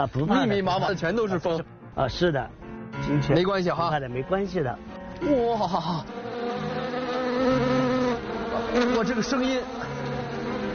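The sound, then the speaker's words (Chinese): Many wild bees buzz inside a beekeeping greenhouse, a steady droning hum that stands out clearly in the second half after people talk over it at the start. “啊，这边就是专门养蜂的地方了。 啊，是的。 我怎么感觉里边啊，不密密麻麻的全都是蜂？ 啊，是的。 没关系哈。 没关系的。 哇，这个声音。 哦，是的，到处都是蜂。”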